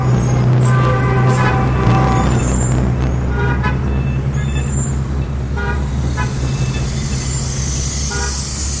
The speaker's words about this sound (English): rides out of his beloved hutong into the wall of sound known as modern Beijing.